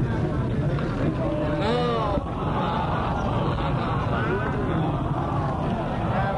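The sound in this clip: Engine noise from motors: a steady, rough drone fills the whole stretch, with a babble of voices and speech running on top of it.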